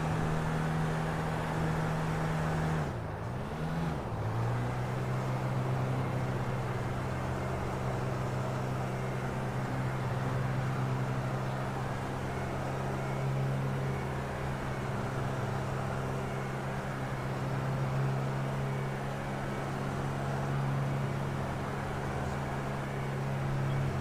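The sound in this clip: Car engine droning steadily in the video game GTA 5 while the car drifts, a low, even hum that dips in pitch briefly early on and then holds level to the end. No tire squeal stands out.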